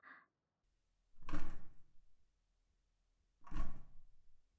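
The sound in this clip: A bathroom door is opened. Two separate heavy sliding thuds are heard, each a short rumbling burst, with near silence between them.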